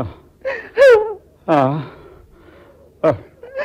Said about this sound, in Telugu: అబ్బా, ఏంటా ఏడుపు?